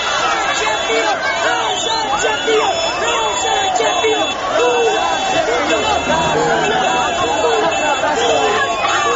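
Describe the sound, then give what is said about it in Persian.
Football club fans in Kulob, Tajikistan, cheer loudly in a dense, continuous roar of many overlapping shouting voices that holds steady throughout. “این صدای مخلصانی دسته فوتبالی روشن کولاب بود”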